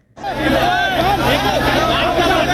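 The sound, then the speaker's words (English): Thousands of protesters march on the state assembly in Jharkhand, India, demanding changes to government recruitment exams. After a brief silence, many loud overlapping voices shout and chant continuously in a dense, steady roar. “That's the sound of thousands of protesters in the eastern Indian state of Jharkhand marching on the state assembly, demanding changes to the way government recruitment exams are run.”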